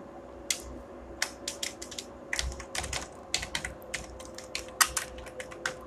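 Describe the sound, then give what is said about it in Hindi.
Someone types a keyword on a computer keyboard: many quick, light key clicks in irregular bursts, fairly quiet, with no talking. “यहाँ पे जो था keyword हमारा वो लिख लेते हैं भोजपुरी सॉन्ग”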